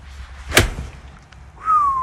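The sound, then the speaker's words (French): A golf club swing during a practice attempt: one quick, sharp swoosh that rises and cuts off within a fraction of a second. After a short quiet gap comes a steady, high whistle-like tone. “Alors moi, je me suis essayé au swing, et c'est là qu'on voit qu'il y a tout un tas de paramètres à gérer.”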